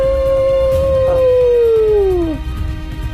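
A single long wolf howl holds a steady, high tone and then slides downward as it fades, over a low, rough rumble of background noise.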